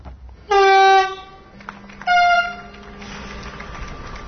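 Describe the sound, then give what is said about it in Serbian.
Powerful horn of a Siemens Vectron freight locomotive sounds in two loud, steady blasts, the first longer than the second, followed by a low rumble of rail noise. “Snažna sirena Siemensove Vectron lokomotive obeležila je početak novog života za kompaniju Srbija Cargo.”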